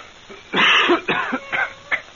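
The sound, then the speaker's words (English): A person coughs in a short run of harsh bursts: one long, loud cough first, then a few shorter, quieter coughs with a throaty, rasping edge. “It was a cough. What'd you think it was?”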